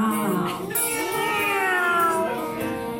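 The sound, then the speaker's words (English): Voices imitate cat meows in a blues song: drawn-out, gliding, wavering meow sounds that bend up and down in pitch, loud and continuous for a few seconds. “Oh, you all gotta do meows at the end of the sentence.”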